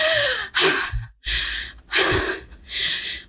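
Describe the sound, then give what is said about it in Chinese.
Heavy panting breaths during an acting-class breathing demonstration: a rapid series of loud, rough inhales and exhales alternate in an uneven rhythm, each breath a harsh rush of air separated by short pauses. “好，你可以立刻感觉得到的事情是，因为你变喘了嘛。好，我因为一边讲话，所以更喘。你会感觉到我的呼吸是需要。”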